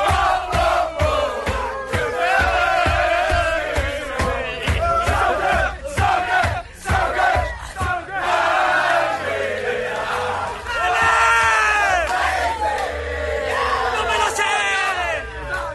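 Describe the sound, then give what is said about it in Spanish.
Tottenham players celebrate in their dressing room in Amsterdam with group shouting and rhythmic pounding beats. Loud chanting voices follow, breaking into bursts of raucous singing toward the end. “Por cierto, último sonido, vestuario del Tottenham en Ámsterdam.”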